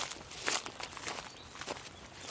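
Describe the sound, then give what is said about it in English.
Footsteps walk up a track toward a hut, a steady run of crunching steps with a few louder scuffs. “So we parked the waka, puffed up the track,”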